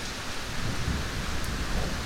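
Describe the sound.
Thunder rolling through a storm with heavy rain, a continuous deep rumble beneath a dense rain hiss, loud and sustained throughout without distinct separate cracks.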